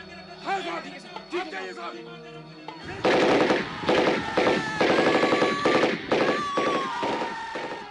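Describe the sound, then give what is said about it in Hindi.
Sten gun bursts in battle: after a few seconds of voices, loud rapid rattling bursts of automatic fire take over. Several hard, dense volleys crowd closely together and continue to the end. “बाना सिंह कभी इस मोर्चे पर दौड़ते तो कभी उस पर, स्टैन गन से गोलियों की बौछार करते हुए”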